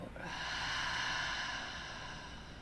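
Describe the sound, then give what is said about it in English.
A deep breath during a guided breathing exercise: one long, steady, airy rush of air, fairly soft, fading slightly toward the end, with no voices. “Another one, deep breath in and out.”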